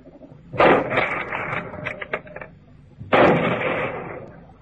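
Two loud gunshots ring out over a stretch of river. Each is a sharp, heavy blast that rolls on in a long, rumbling decay, and the second comes about two and a half seconds after the first.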